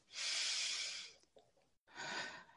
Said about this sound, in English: So let's take some deep breaths.